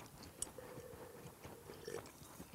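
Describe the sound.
Quiet chewing of ham (skinke) during a picnic tasting: soft wet mouth smacks and small clicks, with one sharp tick near the start.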